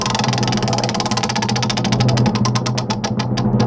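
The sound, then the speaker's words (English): A prize wheel spins with rapid, even ticking that gradually slows and spaces out toward the end, over a steady low hum. “Let's spin that wheel. Let's spin it again.”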